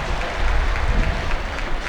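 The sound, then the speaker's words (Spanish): Crowd applause fills the air as spectators give an ovation during a football squad's player introductions, a dense, steady wash of clapping holding at an even level throughout. “Linda ovación para Barco.”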